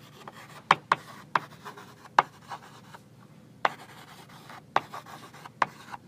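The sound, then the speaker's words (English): Sharp, dry taps as dots are drawn on a board, several separate hits spaced irregularly over about six seconds against a faint, quiet background. “And I just draw them as dots.”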